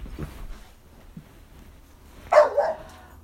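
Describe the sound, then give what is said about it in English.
A dog barks twice in quick succession near the end, sharp and moderately loud, after a stretch of quiet low rustling and a couple of faint soft noises. “Pardon the dog, okay.”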